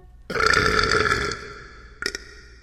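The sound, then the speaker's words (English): A loud, drawn-out burp lasting about a second, followed after a short pause by a brief second burp. “And burp. And burp.”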